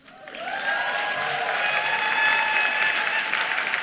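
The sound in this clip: An audience at a poetry reading breaks into applause that swells within the first half second and then holds steady and loud. Sustained whoops and hollers ring over the clapping.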